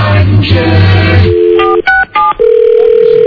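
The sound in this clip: Electronic tones from a very old clubhouse telephone: after a muffled, busy opening, a steady tone sounds, then a few short two-tone dialing beeps, followed by a continuous dial tone that runs to the end.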